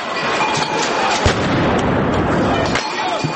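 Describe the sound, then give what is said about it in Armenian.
Explosions during violent street clashes in central Kyiv, where protesters threw stones and firebombs and set police vehicles alight. A couple of dull booms stand out against a dense, continuous roar of noise. “Ժամեր շարունակ Կիևի կենտրոնից պայթյունների ձայներ էր լսվում”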